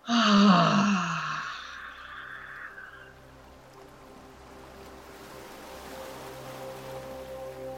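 A long exhale in a guided breathing exercise begins as a loud, voiced sigh for about two seconds, then thins into a faint, breathy trail that continues to the end.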